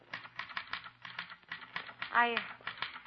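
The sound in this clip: Typewriter typing: a quick, steady run of many mechanical keystrokes, moderately loud, with a brief voiced sound partway through.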